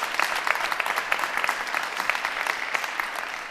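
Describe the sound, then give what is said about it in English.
An audience claps to welcome guests at an event. The applause is fairly quiet and even, a dense patter of individual claps that continues throughout. “Audience, can we welcome our guests one more time here to the Lazaridis space?”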